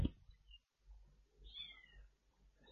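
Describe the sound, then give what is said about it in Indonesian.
Faint, high-pitched mews from hungry kittens, a litter of five, with a few brief thin cries rising over a low background hum. “Kedengaran gak suara kucing? Belum makan kayaknya. Ada 5 kucing kecil. Ada kitten”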